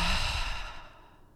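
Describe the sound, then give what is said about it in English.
During a guided meditation breathing exercise, a long, airy exhale through the mouth starts strong and slowly fades away over about a second. No one talks. “Inhale through your nose. Exhale through your mouth.”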